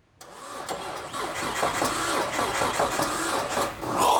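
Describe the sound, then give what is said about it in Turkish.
A Chevy Small Block engine with a pushrod fault cranks over on the starter, a steady rhythmic mechanical churning that starts abruptly and carries on evenly without catching and running. “Motoru çevirelim ve itme çubuklarının hareket edip etmediğini görelim mi?”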